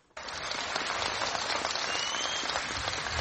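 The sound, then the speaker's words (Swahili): Celebration from villagers in Kogelo, Siaya County, Kenya, heard as a dense wall of crowd clapping and cheering. It starts abruptly and then holds at an even, loud level throughout. “Ilikuwa ni shangwe na vigelegele kwa wakazi wa kijiji cha Kogelo kilicho katika kaunti ya Siaya nchini Kenya.”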